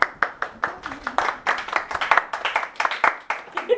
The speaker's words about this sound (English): Okay, clap for yourselves.